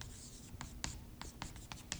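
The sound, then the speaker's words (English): A pen writes on paper in a series of faint, short scratchy strokes, irregular in rhythm, with a quiet hum beneath. “I want to write something down here.”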